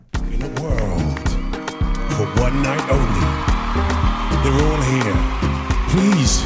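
Loud radio show jingle for a Quidditch world championship programme: dense, busy music with whooshing sweeps and rapidly shifting tones, driving on without pause for several seconds.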